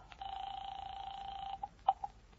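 A telephone being dialed: a steady tone holds for over a second, then a few short tone blips follow, all quiet and without voices.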